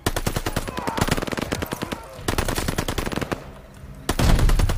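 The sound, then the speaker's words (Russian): Rapid automatic gunfire from the video game Call of Duty Vanguard rattles in loud, sustained bursts with brief lulls, closing on a heavier burst. “Хотя он сбоку где-то стреляет.”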